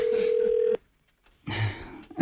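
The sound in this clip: A telephone gives a single steady electronic ring tone lasting under a second, then cuts off into a brief silence before some rustling handling noise.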